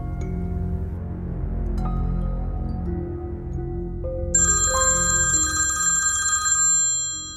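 A telephone rings with electronic, tonal ringtone notes. Steady pitched tones step along, then a brighter, higher ringing pattern joins partway through and repeats before dying away.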